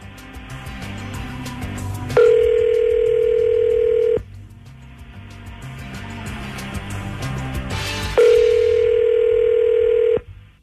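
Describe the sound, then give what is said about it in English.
Ringback tones of an outgoing telephone call: two long, steady, mid-pitched tones about two seconds each, separated by a gap of a few seconds, over a constant busy background. “You dial mom up and we'll listen, okay?”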